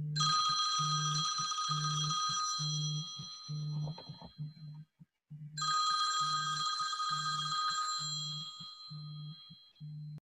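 Ringback tone of a telephone on an outgoing call: two long electronic ringing bursts separated by a short silence, each a bright, trilling tone over a pulsing low buzz.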